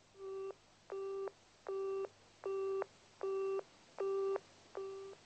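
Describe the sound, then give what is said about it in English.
A telephone busy signal after dialing a wrong number: seven evenly spaced, identical beeps pulse in a steady on-off rhythm, quiet and alone with no talk. “He's dialed the wrong number. Then he tries again.”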